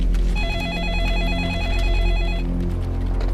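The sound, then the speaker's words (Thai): A telephone rings with an incoming call. It gives a single rapid, warbling electronic trill that lasts about two seconds and then stops, over steady background noise. “ผู้กำกับครับมีสายทันทัด”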